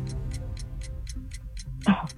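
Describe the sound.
Steady ticking of a quiz countdown timer clock, about nine even, evenly spaced ticks, each crisp and moderately loud, running over low voices in the background.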